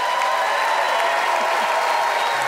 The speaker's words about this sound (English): some fearful applause there.